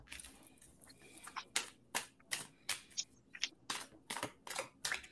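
A deck of cards is shuffled for a card reading. Many faint, crisp snapping bursts come in quick irregular succession, with no talk.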